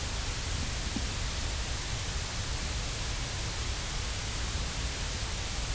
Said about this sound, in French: Ce bruit rose, c'est un bruit qui décroît en fonction de 1 sur F. Rien n'émerge.